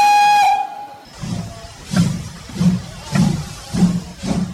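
Steam escaping from an old steam locomotive: a shrill steam whistle sounds first, then about six loud, rhythmic chuffs of exhaust steam puff out at a steady pace, with a hissing, rumbling texture and no talking.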